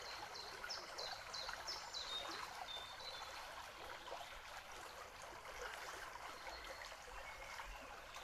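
Babbling river stream flowing steadily, a continuous soft wash of trickling and splashing water that stays even in level throughout, with no voices.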